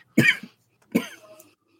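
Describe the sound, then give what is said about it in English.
Two sharp, loud coughs from someone choking on a piece of cookie, the second followed by a short rougher tail, with silence around them. “Sorry, I started to choke on a piece of cookie.”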